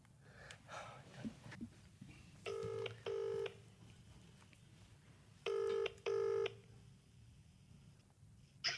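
Telephone ringback tone heard while calling someone back: two double rings, each a pair of short buzzing tones, separated by a pause, quiet over low background noise.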